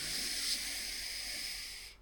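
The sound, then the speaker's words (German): A long, deep inhalation is drawn during a guided relaxation exercise while the shoulders are lifted. It is a steady, airy hiss lasting about two seconds that tapers off at the end. “nimm noch mal einen tiefen Atemzug, atme tief ein und zieh die Schultern nach oben”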